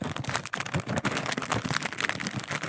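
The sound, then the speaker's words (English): Paper and heavy tape crinkle and tear as a heavily taped gift package is unwrapped. The rustling comes in rapid, loud, uneven bursts and runs continuously with no talk. “Ooh, this is some tough tape you've got on here. I'm just going to say there's possibly too much tape on here.”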